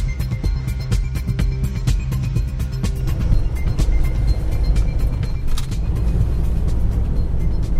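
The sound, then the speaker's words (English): Steady engine and road rumble inside a moving van driving toward Roubaix during the Paris-Roubaix cycle race, a loud continuous drone with no talking. “Simon, we're back in the van heading towards Roubaix, hoping to make it to the velodrome in time for the finish.”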